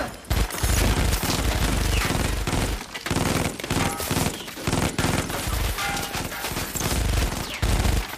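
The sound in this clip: Gunfire rings out as two armed men blast into a closed storeroom, a loud, dense fusillade of rapid shots and bursts with only brief gaps.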